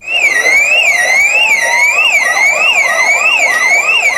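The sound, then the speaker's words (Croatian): A wailing electronic alarm starts an evacuation drill at a primary school. It is a loud, continuous rising-and-falling tone, joined midway by a second, faster warbling tone, with no voices. “Zvuk alarma označio je početak pokazne vježbe evakuacije.”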